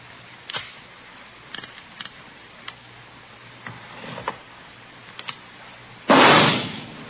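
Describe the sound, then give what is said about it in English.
A single loud gunshot from a .38 caliber revolver, test-fired into a ballistics box in a police ballistics room, comes near the end as a sharp blast that decays quickly. A few faint clicks and taps come before it. “You have just heard a test bullet fired from a .38 caliber revolver found in the possession of a suspect.”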